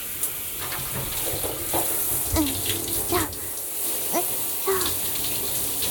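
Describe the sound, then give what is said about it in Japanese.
Water rinsing shampoo out of hair: a steady, hissing flow runs throughout, broken by soft splashes and gurgles. “それじゃ、流していきましょうか。シャンプーが入らないように、ちゃんと目を閉じててくださいね。”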